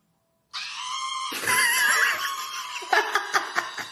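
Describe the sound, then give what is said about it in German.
A long, piercing scream from an old film, held loud and high for about two seconds, then breaking into a few short, pulsing cries. “Zum Abschluss gibt's noch einen wunderschönen Schrei aus dem alten Film S.”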